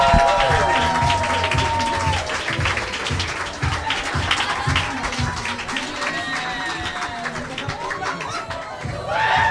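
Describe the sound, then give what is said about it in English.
A live comedy show audience applauds for the next comedian, with sustained dense clapping mixed with crowd chatter and voices throughout. “Start clapping right now. So much louder than that. Bring it up.”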